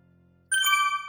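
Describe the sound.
A bright electronic ding chime struck once, a clear high ringing tone that sustains to the end after a moment of faint low hum.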